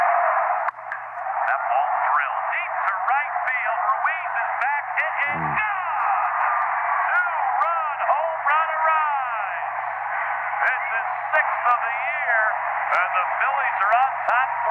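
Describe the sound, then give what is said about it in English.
A baseball game on the radio, a tinny, narrow-band announcer voice talking continuously through crackling static, with a faint steady hum underneath. “I would be listening to like a Phillies game over all this static and whatnot. And it would sound something like this.”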